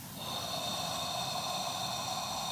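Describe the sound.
A long breath drawn in through the nose, heard as a steady, airy rushing hiss that holds at an even level for the whole clip, with no speech.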